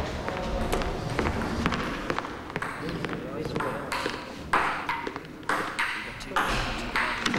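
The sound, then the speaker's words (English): Table tennis played by two patients in a recreation area: a few light, sharp ball clicks at irregular intervals, faint, over a low murmur of background noise and voices. “stomps off down the corridor to a recreation area where two patients are playing table tennis”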